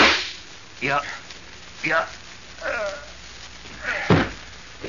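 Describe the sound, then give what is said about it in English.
Gunshots in a radio drama, a few sharp whip-like cracks spaced roughly a second apart, each short and punchy over a quiet background. “I warn you, Randolph. I've got a gun. I'm going to shoot.”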